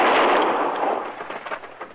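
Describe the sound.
A single gunshot rings out during a Western-style standoff between a lawman and a gunman, a loud sharp blast at the start that fades into a long, rumbling, crackling decay.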